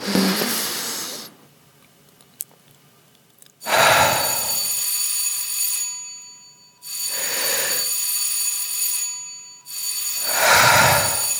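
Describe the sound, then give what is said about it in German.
Electric theatre bell signal sounding the third call before a performance. A loud, continuous metallic ringing comes in several long bursts of a couple of seconds each, separated by short silences. “Das war das dritte Klingelzeichen.”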